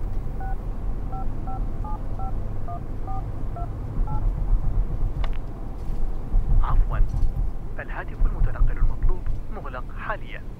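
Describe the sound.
A telephone is dialed to place a call: a run of many short, evenly spaced keypad beeps over a rough, windy background noise, followed by brief bursts of sound.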